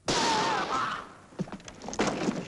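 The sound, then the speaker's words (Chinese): A handgun fires a single sharp, loud shot during a confrontation, its blast decaying with a ringing tail, followed by a few softer thuds. “真没想到，子弹打中了塞蒙的膝盖，杰克慌了，他扔掉了手枪”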